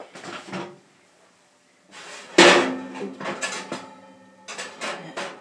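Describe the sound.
Metal oven tray handled in a kitchen, giving a few bursts of clattering, scraping metallic knocks separated by short pauses, with one sharper clank standing out in the middle.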